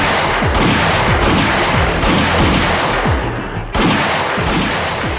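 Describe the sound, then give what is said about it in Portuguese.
Several loud gunshots fired at a bulletproof vest worn by the shooter himself, each a sharp blast over a dense, continuous rumble of echoing reports. “Por repetidas vezes, ele atirou contra si seus próprios produtos para provar a eficiência de seus coletes.”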